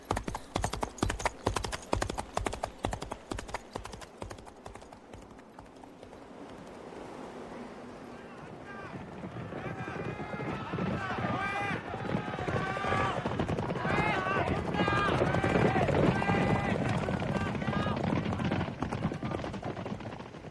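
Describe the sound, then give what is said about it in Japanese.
Hooves of horses galloping beneath two riders beat a fast, steady clatter for roughly five seconds, then give way to a louder, dense wash of other sound. “エゴロワおばさんと僕は馬に乗り、アルフォンの元へと走った。”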